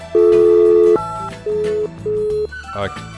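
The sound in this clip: A telephone tone sounds after a caller drops off the line: three steady electronic beeps, the first long and the next two shorter, over a low background hum.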